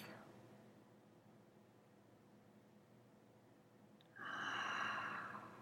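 A slow, soft breath is drawn in through the nose during a guided breathing exercise. It lasts several seconds and is followed by a louder, airy exhale through the mouth.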